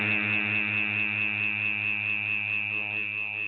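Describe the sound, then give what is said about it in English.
An electric shaver buzzes with a steady, constant-pitched hum and a faint rhythmic pulsing. It runs alone without a break. “Yeah, and somebody's shaving.”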